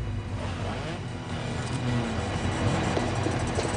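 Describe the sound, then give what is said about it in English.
Car pulling into a garage, a low, rough engine rumble that holds steady and grows slightly louder toward the end. “A car pulls into the garage, and Johnny gets out.”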